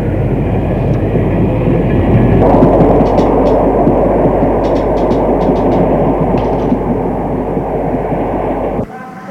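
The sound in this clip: Steady, loud rumble of a train carriage at a nearly empty station at night, with faint high clicks and clatter over the noise, which drops abruptly just before the end.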